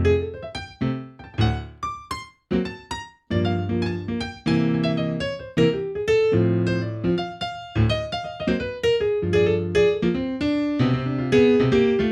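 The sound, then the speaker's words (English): Solo piano improvisation on a single piano, with many struck notes and chords in a free, irregular rhythm. Dense ringing passages are broken by a couple of short pauses early on, then the playing continues loud and sustained with no voices. “Here's what solo piano improvisation sounds like.”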